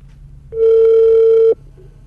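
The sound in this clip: A single ringback tone on an outgoing telephone call: one loud, steady, even-pitched tone lasting about a second, then it stops, with no talk.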